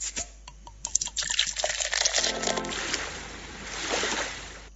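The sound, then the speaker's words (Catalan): A bottle being opened and liquid poured: sharp clicks and knocks at the start give way to a steady rushing, gurgling pour that swells and fades. “És el moment d'obrir la nostra ampolla musical.”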